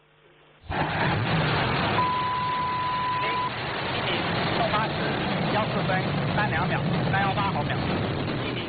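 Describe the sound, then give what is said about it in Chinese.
A Long March 7 carrier rocket ignites and lifts off: a broad roar starts abruptly after a short quiet lead-in and holds loud and steady to the end, with voices over it. “长征七号遥十一运载火箭点火起飞”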